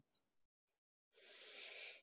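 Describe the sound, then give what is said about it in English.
A sharp intake of breath, a single hissing inhale lasting about a second after a short pause, preceded by faint breathy sounds. “Ooh, sharp intake of breath there.”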